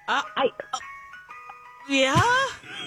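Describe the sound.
Ice cream truck jingle plays as a bright electronic tune of steady, evenly pitched notes, loud, with a voice coming in over its final part.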